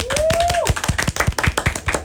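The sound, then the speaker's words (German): Steady hand clapping as applause: a brisk, even rhythm of sharp claps, fairly loud, with no voices. “Großer Applaus für meine Cousine.”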